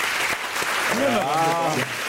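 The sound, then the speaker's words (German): An audience claps steadily as a show of support during a live vote on perimeter building development, a dense even patter of applause lasting throughout while a voice briefly speaks over the middle. “Mal klatschen bitte.”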